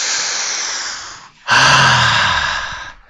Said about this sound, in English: Whew. Everybody take a deep breath.